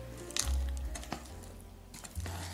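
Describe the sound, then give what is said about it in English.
Thick nut roll dough being stirred as it stiffens, giving soft, quiet squishing and sticky scraping with a few dull thuds and faint crackles. “So let's get this stirred up. It's getting a little stiffer, isn't it?”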